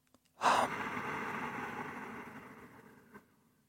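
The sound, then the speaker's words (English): A single long, airy breath from a breathing demonstration starts abruptly and then slowly softens and fades over about three seconds. The breath is faint and heard alone, with a small trailing puff near the end. “carefully to your own breath while I demonstrate the subtle sound that exists in the breath. On inhalation, on exhalation,”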